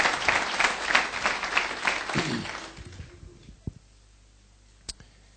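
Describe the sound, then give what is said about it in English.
Church audience applause: thick clapping for about three seconds that then dies away, followed by a couple of isolated clicks in the quiet. “Let's give the Lord a big hand, please.”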